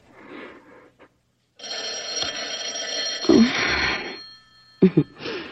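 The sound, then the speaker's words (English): A telephone bell rings loudly in one sustained burst of about three seconds, with softer, indistinct sounds before and after it. “Will you answer it? I think it's Helen.”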